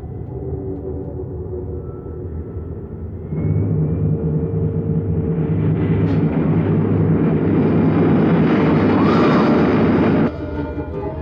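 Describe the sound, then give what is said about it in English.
Rocket engines roar as a ship drops below the speed of sound: a deep, broad rumble swells in suddenly, holds loud and steady for about seven seconds, then cuts off, with no voices. “Again, you'll hear the roar of our rockets as we drop below the speed of sound.”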